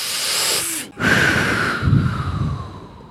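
A deep breath, a long airy rush of breathing that is loud and alone, broken once by a brief pause before the breath continues.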